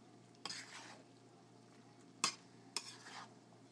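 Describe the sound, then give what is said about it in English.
Noodles bubbling and sizzling in a pan as they are stirred: a faint, steady simmer runs throughout, broken by three sharp scraping stir strokes, one early and two close together near the end. “You can hear a bubble in a way. That's with the noodles in. Give it one last stir around.”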